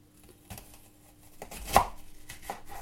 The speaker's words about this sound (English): Now I'm also going to take an onion. Going to peel, chop off the ends. I'm just going to cut that into quarters.